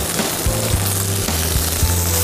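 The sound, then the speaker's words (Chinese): Duck breast frying in duck fat gives a loud, steady sizzle that runs unbroken, with no talking over it. “我现在直接用鸭油来煎鸭胸。”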